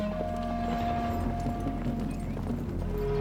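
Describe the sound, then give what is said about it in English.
Horses' hooves clip-clop as a posse of riders moves off, a steady run of soft hoof beats over a sustained low tonal background. “Monahan mounts up. They ride on with the rest of the posse.”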